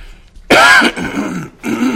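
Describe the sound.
Throat clearing and coughing from a speaker during a church service, in two rough bursts: a loud, harsh clearing, then a pause and a shorter, lower rasp, with no talk.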